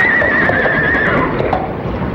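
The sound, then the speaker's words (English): Horse neighing in a long, wavering whinny over the first second, alongside steady clip-clopping hooves that continue alone afterward, loud and without voices, the horse drawing a motor car on a mountainside. “I think the horse must be tired, sir.”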